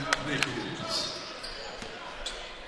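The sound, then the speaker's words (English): A basketball is dribbled on the court during a game, giving a few sharp bounces over steady crowd murmur. “Ute will dribble it over the half-court line to the left side right in front of us.”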